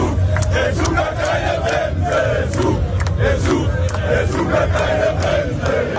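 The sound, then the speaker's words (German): Loud crowd of German football fans cheering and chanting while celebrating on Times Square in New York, a dense roar of many voices punctuated by regular sharp hits, sustained at an even level throughout. “Die deutschen Fans sind auch schon ganz entspannt. Sie haben auf dem Times Square in New York ordentlich gefeiert. Und wir hören da mal rein.”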